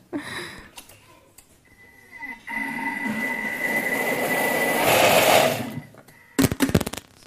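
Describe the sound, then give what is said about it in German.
A blender whirs while pureeing soft cashews, its motor starting with a few light rattles, then roaring loudly and steadily for about three seconds before cutting off, followed by a few short, sharp clattering bursts. “Und jetzt wird lang püriert.”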